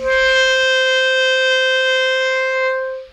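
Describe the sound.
Clarinet sounding a high D as a single steady, sustained tone that holds for about three seconds, then fades out at the end, with no other instruments.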